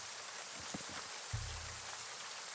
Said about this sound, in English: The city is, like the forest, strangely quiet. save for the dolorous tones of rain pouring onto you.